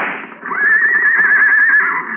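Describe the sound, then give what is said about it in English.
A racehorse that has been shot during a race lets out a loud, high, wavering whinny, held steadily for well over a second after a brief noisy start. “What happened? Somebody shot my horse.”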